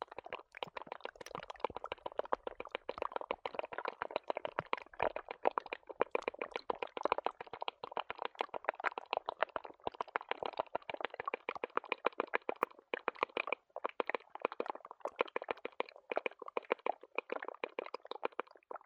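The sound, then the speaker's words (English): Meltwater crackles and drips inside a melting snowbank atop Hurricane Ridge in Olympic National Park on an August afternoon: many tiny pops, ticks and droplets in a dense, steady, fairly quiet patter. “I went to the top of Hurricane Ridge in Olympic National Park on a late summer day, August afternoon, and I poked my head inside of this snowbank that was melting, and this is what I heard.”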